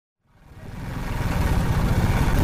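Motorcycle engine carrying a man, a woman and a girl, driven too fast along a road; the throbbing, pulsing roar rises quickly from silence and grows steadily louder.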